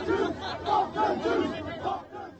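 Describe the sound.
A large crowd of roughly a thousand or more people shouts near the Sydney Opera House. Rough, rhythmic roars rise and fall in repeated swells of chanting voices.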